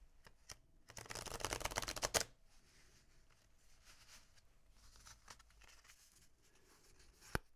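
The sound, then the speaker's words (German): Playing cards are shuffled by hand. A quick riffle gives a dense rattle of clicks lasting about a second, followed by soft rustling and a single sharp tap near the end. The whole sequence is faint, with no talk. “Noch ganz sanft nochmal durch die Hände gleiten beim Mischen.”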